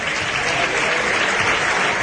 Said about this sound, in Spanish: Palmas de agradecimiento a la entrega y a la disposición de Sebastián, ahora sí, pero no hay toro.